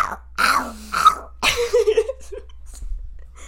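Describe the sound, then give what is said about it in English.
A human voice imitates a golden retriever barking with its vocal cords removed: a few hoarse, breathy huffs followed by a longer croaking rasp, all throaty and voiceless rather than a true bark. “like a golden retriever that got its vocal cords taken out from barking too much. I wonder if I can do it again.”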